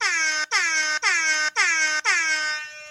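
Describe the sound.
Loud air horn blasts, five in a row with short gaps between them. The sound is a bright, brassy, harmonic blare, and the final blast holds longer before fading out.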